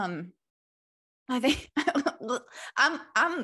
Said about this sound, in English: I'm actually gagging a little bit. I've got a lump in my throat.